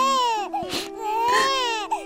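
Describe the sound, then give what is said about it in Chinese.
A baby crying in long, high, wavering wails, two sustained cries broken by a short catch of breath. “宝贝儿，你别哭了，宝贝儿。”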